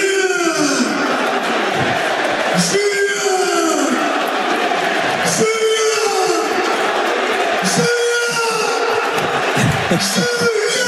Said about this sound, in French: il demande le public de fêter sous ça, regardez, écoutez.